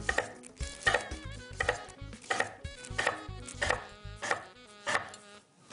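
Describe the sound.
Knife chopping food into small quarter-inch chunks: many crisp, evenly spaced chops in a steady, regular rhythm, with no talking.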